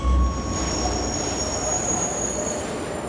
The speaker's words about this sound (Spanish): Stephen junto a los otros pasajeros arrastra su maleta. Llega a la plataforma 5 y espera impaciente a que el tren aparezca.